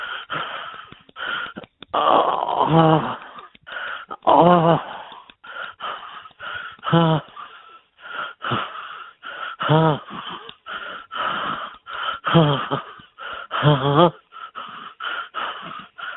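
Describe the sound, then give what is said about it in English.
Repeated wheezing and gasping breaths from a person, many strained, raspy voiced bursts separated by short pauses, loud and uneven in rhythm throughout. “All right, because we haven't got to the wheezing yet.”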